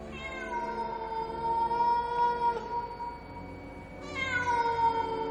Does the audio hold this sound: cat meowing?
yes

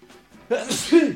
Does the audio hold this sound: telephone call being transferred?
no

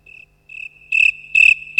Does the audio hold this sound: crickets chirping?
yes

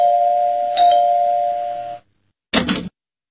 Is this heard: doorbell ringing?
yes

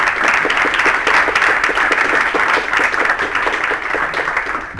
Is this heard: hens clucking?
no

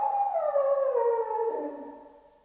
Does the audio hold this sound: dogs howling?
yes

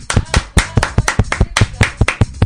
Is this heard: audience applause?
yes

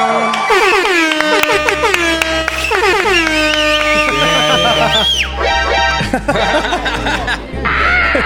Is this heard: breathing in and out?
no

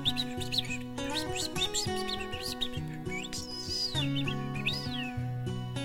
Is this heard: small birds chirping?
yes

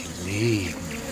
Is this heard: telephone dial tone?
no

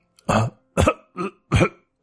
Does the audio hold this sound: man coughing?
yes

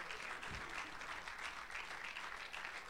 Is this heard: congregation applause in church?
yes

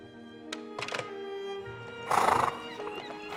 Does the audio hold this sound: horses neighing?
yes

